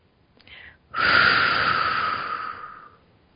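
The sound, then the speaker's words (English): A long, breathy exhale through the mouth rushes out for about two seconds, preceded by a brief, fainter breath sound, with no talking. “Bring your energies into your heart and breathe out through your mouth.”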